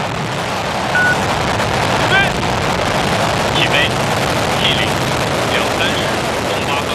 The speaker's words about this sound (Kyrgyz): Саат 23:08 өткөндө ракетага от тутандырылып учурулду.